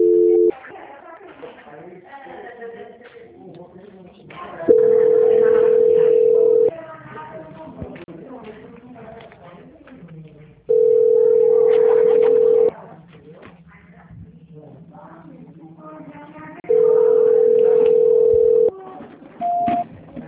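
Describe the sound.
An unanswered phone call rings back with a steady mid-pitched tone. It sounds in bursts of about two seconds separated by pauses: three full rings, plus partial ones at the start and end, with voices talking faintly in the background.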